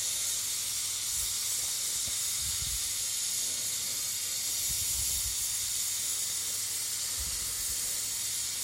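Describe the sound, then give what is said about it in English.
A steady, sputtering hiss comes from something melting, holding an even loudness throughout, with a few soft, low pops and rumbles beneath the hiss. “I guess that's the sputtering that I heard right about.”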